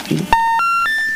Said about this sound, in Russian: Опять у нас сорвался звоночек. Наберите, пожалуйста, еще разок.